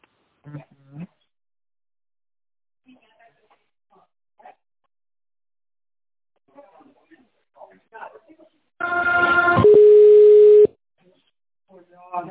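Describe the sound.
A telephone line tone plays while a business call is put through: one buzzy tone burst of about two seconds that settles into a steady pure hum, with brief stretches of quiet talk before and after.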